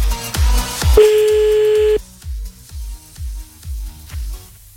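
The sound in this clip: Telephone tones while a call is redialled: quick dialing beeps, then a steady tone of about one second, then a regular series of low pulsed tones.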